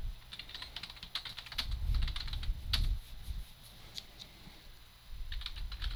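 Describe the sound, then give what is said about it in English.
Typing on a computer keyboard: rapid, uneven clicking keystrokes, many of them in quick bursts, with short pauses between runs and a low rumble underneath. “Talk about something while I type, would you?”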